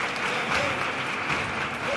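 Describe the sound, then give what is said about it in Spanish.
Applause from a theatre audience in the stalls, on their feet after a paso doble song. Dense, steady clapping stays fairly quiet throughout, with a voice talking over it. “Gran parte del patio de butacas está de pie aplaudiendo esta letra.”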